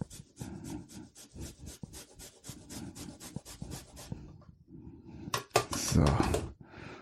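Fresh ginger is rubbed against a kitchen grater for spiced milk tea, giving many quick, rhythmic rasping strokes, followed by a brief louder clatter near the end.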